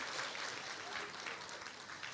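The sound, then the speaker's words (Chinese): Applause at a church service welcoming someone after a prayer, a steady, dense patter of many hands clapping, fairly faint and continuous throughout. “好，我用掌声欢迎你。”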